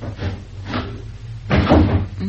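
A stiff window being forced open, giving a few rough scraping and rubbing bursts, with the loudest, grinding push near the end. There are no voices.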